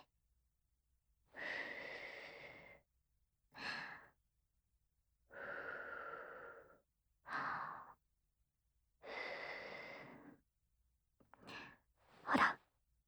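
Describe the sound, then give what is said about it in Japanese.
Gentle puffs of breath blown to dry something: a series of soft, airy bursts separated by quiet pauses. Longer and shorter puffs alternate, and the final burst is brief and sharper. “優しくふうふう。”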